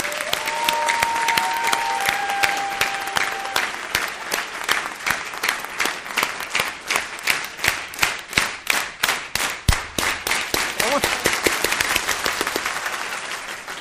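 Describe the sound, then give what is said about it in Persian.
Audience applause in honour of the organisers, mentors and coaches: dense, steady clapping with many sharp individual claps that carries on for about fourteen seconds and grows more rhythmic and pulsing toward the middle and end. “یه دستم به افتخار تمام گردانندگان و مربی ها و کوچی های خودتون بزنید بفن.”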